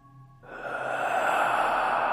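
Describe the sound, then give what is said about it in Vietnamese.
A man lying still takes a sudden, very deep breath, a long, loud, breathy rush of air that swells quickly and then holds strong. “Bỗng nhiên ông hít một hơi rất sâu, rồi thở đánh phà ra một tiếng, nghe rõ lắm.”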